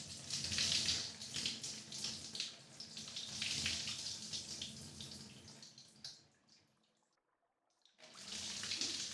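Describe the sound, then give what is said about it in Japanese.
Warm bath water poured to rinse off a seated person: a steady, loud splashing rush that fades to near silence for a moment, then resumes at full strength near the end. “ここに腰掛けるがよい。まずは洗い流してしまおうか。”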